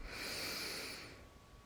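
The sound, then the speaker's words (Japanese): A deep inhale through the nose during a guided yoga breathing exercise: one steady, airy hiss that swells and holds for about a second, then fades, with no talking. “はい大きく鼻から吸って”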